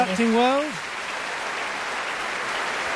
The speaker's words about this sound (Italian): Applausi continuano.